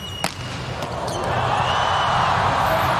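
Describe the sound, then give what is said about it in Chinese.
A volleyball serve that goes for a direct ace in a final between Poland and the USA: one sharp, brief hit near the start, then a crowd roar that swells and holds loud. “哈内斯发球直接得分。”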